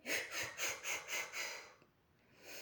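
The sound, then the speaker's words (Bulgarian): Sharp, forceful exhalations in a breathing exercise: six quick breathy bursts in a steady rhythm, each a short rush of air, then a brief quiet and a softer breath at the end. “ние сега както вдишваме, ще издишваме рязко и на няколко пъти.”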